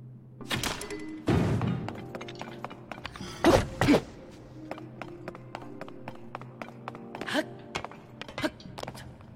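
Dull thuds of a weapon thrown to cut something in a video game: a few soft clunks, then two louder hits in the middle, over steady tonal game music.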